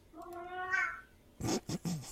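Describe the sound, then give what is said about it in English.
A hungry cat meows once in a drawn-out, harmonic cry that swells and fades, followed by a few short, loud noisy bursts. “And let my cat out. Your cat's hungry.”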